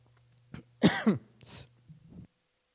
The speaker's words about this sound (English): Excuse me. Water went down the wrong way.